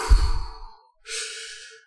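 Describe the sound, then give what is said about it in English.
A voice imitates heavy, laboured breathing, like an athlete concentrating on each breath while walking. Two breaths are heard: a deep, voiced, sighing one, then a short pause and a breathy hiss. “every time I saw him on the broadcast, he was breathing like he was really concentrating on breathing. You know, like he was going,”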